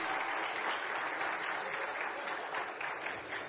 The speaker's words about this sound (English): Can you guys give her a hand to welcome her on stage?